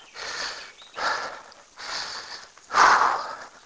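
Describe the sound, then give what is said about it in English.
Heavy breathing of a person catching their breath after a hard run on a humid, misty morning: four loud, rasping breaths in a slow, steady rhythm, the last one the strongest, with no talk. “steps of a hard run, which this has been. Okay. Let me catch my breath just a minute.”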